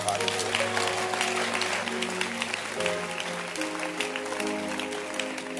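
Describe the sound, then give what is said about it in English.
An audience claps their hands in dense, continuous applause that stays even in loudness, with sustained musical chords underneath. “Clap your hands.”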